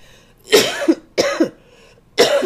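Three harsh coughs from a preacher battling a cold during a sermon, evenly spaced, each a sharp burst trailing into a rough, throaty tail.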